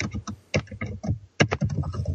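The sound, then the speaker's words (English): Typing on a junky laptop keyboard: many quick plastic clicks and taps in uneven bursts, with brief pauses between runs of keystrokes. “is your keyboard like from an old Compaq computer? No, but it is a junky laptop.”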